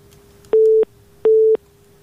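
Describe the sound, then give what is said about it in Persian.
A phone line's busy tone follows a caller's dropped call. Two short, identical bursts of a steady low hum are separated by an even pause over a faint background hiss. “تماس اینا قطع شد.”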